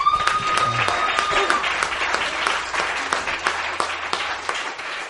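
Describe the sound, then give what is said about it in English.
Congregation applause during a church worship service, a dense burst of many hand claps that stays steady and loud throughout, with a few voices mixed in. “You can give the Lord a cheer.”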